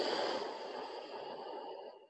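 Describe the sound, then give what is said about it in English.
A long, steady breath, drawn and let out during a guided stretching class, soft and airy with even breath noise that fades away at the end. “Breathe in. Empty it out.”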